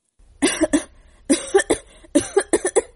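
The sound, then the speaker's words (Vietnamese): A man coughs violently in three fits of rapid, harsh coughs. Each fit packs several loud, chesty bursts close together. “Hắn lại bắt đầu ho sặc sụa.”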